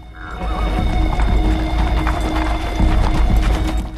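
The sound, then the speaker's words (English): Several horses gallop quickly down a track, their hooves a dense, continuous pounding that stays loud throughout, with a short whinny near the start. “The four of them ride their horses quickly down the track.”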